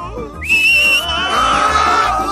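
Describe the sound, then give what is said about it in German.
A sharp summoning whistle, a single high tone held for about a second, followed by a lower, drawn-out tone. “Auf Roxanas Pfiff hin schüttelte der Besen seine Reiter ab und flog zu ihr.”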